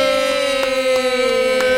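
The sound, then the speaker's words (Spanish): A siren wails as a loud, steady tone with strong harmonics, its pitch sliding slightly lower, with a faint pulsing beneath it. “Ahora sonaban sirenas. Sigue sonando la sirena, sigue sonando la sirena.”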